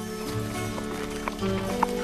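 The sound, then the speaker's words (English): Hooves clip-clop as a saddled horse carrying a rider trots out of a barn. The hoof beats are a few light knocks over a steady, sustained musical background. “He helps her up into the saddle and she and Stripes trot out of the barn.”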